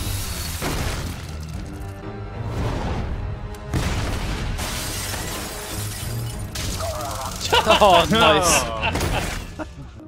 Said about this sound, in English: Grenade!